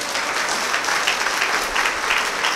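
Audience applause at a religious gathering. Many hands clap in a dense, steady patter for a couple of seconds at a moderate, even loudness.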